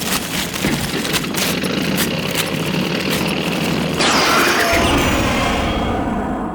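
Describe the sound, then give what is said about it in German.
A reading machine shreds a treasure map into paper scraps with a loud, steady rumbling and clattering drone like a running engine. The texture shifts abruptly about two-thirds of the way through. “Ich will ja nichts sagen, aber deine Schatzkarte ist jetzt nicht entschlüsselt, sondern zerfetzt. Deine Maschine hat die Karte in 1000 Papierschnipsel zerrissen.”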